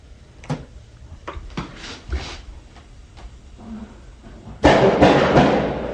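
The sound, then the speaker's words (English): Gunfire outside a home: a few sharp, isolated bangs come first, followed by a sudden, much louder burst of noise that holds for more than a second and then slowly fades. “Oh God, did you just hear that? That shooting.”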